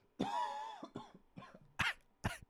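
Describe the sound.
Someone with allergies coughs and clears their throat: a longer, rough, voiced hack followed by a few weaker coughs, then two sharp, harsh bursts near the end, each standing out clearly against near silence.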